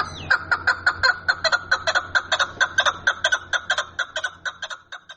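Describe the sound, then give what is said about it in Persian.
A chukar partridge calls in a long run of loud, harsh, rhythmic clucking notes, repeated many times and fading slightly toward the end. “صدای این پرنده خوش آواز بلند باشد و دیگر به خاطر شنیدن آواز خوشش کبک را به قفس نندازد”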